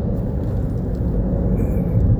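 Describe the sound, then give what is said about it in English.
Cars speeding on a highway make a steady, loud, low road rumble that runs continuously with no distinct single pass. “I've got these speed demons on the highway, trying to avoid a wreck.”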